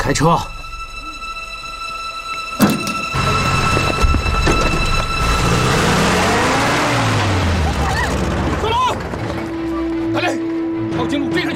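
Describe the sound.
A car drives off, its engine revving and accelerating into a loud roar that rises in pitch mid-clip and then levels out, over busy background noise.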